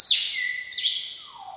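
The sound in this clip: A white-rumped shama sings alone in clear, high whistled notes, a few bright sliding phrases ending with a lower descending whistle.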